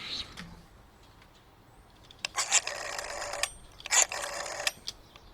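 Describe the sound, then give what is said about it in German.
A telephone rings twice in two short, bright, buzzing bursts about a second apart, rising above a low, steady hiss. “Ah, jetzt ruft Tim Wiese bestimmt gerade wieder an.”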